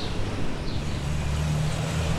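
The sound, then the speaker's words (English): A parcel delivery truck on a city street gives a loud, steady roar of road noise over a low, droning engine hum that holds even throughout, with no clear swell or fade. “Did you get the reading on that UPS truck? It was 81 with the UPS truck.”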